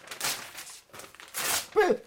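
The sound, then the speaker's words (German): Sheet music being torn up, with two rough, rasping bursts of ripping paper and a brief voiced sound at the end. “Wer bist du von Sinn? Die Noten zu zerreißen?”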